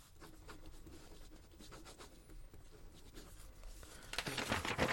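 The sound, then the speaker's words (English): Handwriting on paper: quiet, scratchy pen strokes in quick irregular bursts, growing a little louder toward the end. “I'm going to write it down.”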